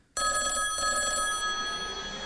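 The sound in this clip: Telephone ringing jingle announcing a mystery phone call, a bright, sustained electronic ring that starts abruptly and continues steadily without pause.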